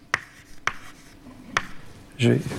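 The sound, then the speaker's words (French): Handwriting a denominator in a maths derivation: three sharp, separate pen taps and strokes spaced unevenly apart, followed by a brief voice at the end. “Je vais écrire mon dénominateur un peu plus...”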